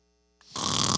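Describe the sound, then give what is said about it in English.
A voice imitates snoring: a brief silence, then one loud, rough snoring breath that swells and holds to the end. “Snoring, sleeping. He's out like a light.”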